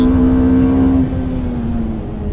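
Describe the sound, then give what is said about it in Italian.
Ferrari engine at full throttle out of a second-gear hairpin at the Fiorano track, rear tyres spinning and smoking: a loud, steady engine drone holding a nearly constant pitch, easing slightly after about a second. “Qua le gomme fumano un pochino dietro in quel tornante da seconda, perché chiaramente spalancando tutta la potenza, spalancando il gas, le ruote pattinano in maniera importante.”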